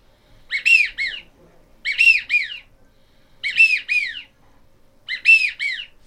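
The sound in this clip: Wigeon calling: four clear, evenly spaced whistled calls, each a two-part falling whistle, heard alone against a quiet background.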